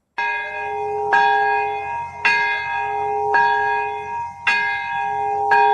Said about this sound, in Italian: Per la prima volta dopo 80 anni suonano entrambe le campane della cattedrale di Urakami, vicinissima all'epicentro della bomba atomica sganciata il 9 agosto